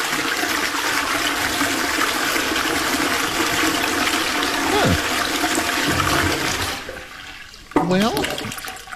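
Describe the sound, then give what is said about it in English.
An automatic toilet flushes away solid and liquid waste with a loud, steady rushing roar that lasts about six seconds and then drops off, leaving a brief quieter tail. “It then extends a disposal arm, completely flushing both the solid and liquid waste away.”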